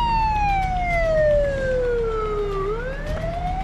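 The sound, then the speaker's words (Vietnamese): Ambulance siren wailing over a low traffic rumble, one long tone sliding steadily downward and then climbing again, loud throughout. “Tracy nghe thấy tiếng còi hù đang tới gần, và giây lát sau, chiếc xe cấp cứu lao vụt qua, hướng về phía ngôi nhà Romano”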